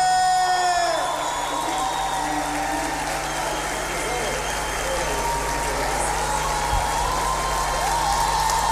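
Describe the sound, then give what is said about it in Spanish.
An audience applauds and cheers as an award is presented at a folk music festival in Patagonia, a continuous dense wash of clapping and cheers with a voice speaking over it. “Escucha lo que dice tu público, porque esta noche te entrega Ñandú.”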